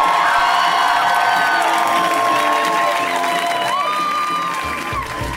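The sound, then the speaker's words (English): An audience applauds and cheers to welcome a guest onto a stage. Sustained clapping is mixed with whoops and high whistle-like calls, and the sound eases slightly near the end. “Please give a warm welcome to Nicole Byer,”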